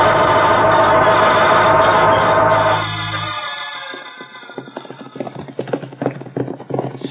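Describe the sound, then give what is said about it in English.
Horses galloping in a Western drama: sustained loud music fades out, leaving rapid, irregular hoofbeat clatter that stays fairly faint and uneven to the end. “We must ride fast”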